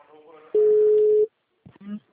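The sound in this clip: A telephone ringing tone plays while a call connects, a single steady mid-pitched tone lasting under a second, with brief voices before and after it.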